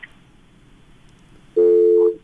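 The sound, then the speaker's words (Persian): A telephone busy tone after a caller's line drops: one steady, mid-pitched beep lasting about half a second, rising out of a faint line hiss. “فکر میکنم تماس ما قطع شد.”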